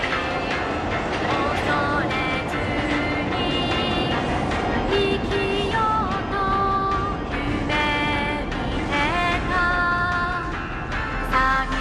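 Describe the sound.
A train passes with a loud, steady rumble and clatter that fills the whole clip, with shifting high whining and squealing tones layered over it throughout.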